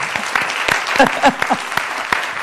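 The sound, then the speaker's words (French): An audience applauds a guest at the close of a talk show, with loose, distinct claps in a quick uneven patter and a voice speaking briefly in the middle. “Mais on l'applaudit encore une fois, Lorraine Pintal.”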